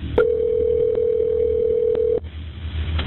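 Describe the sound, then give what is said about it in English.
A telephone dial tone sounds on the line after an emergency call is hung up: a single steady, mid-pitched hum that holds for about two seconds, then cuts off abruptly, leaving faint line noise. “The call is hung up. Dispatchers try to call back.”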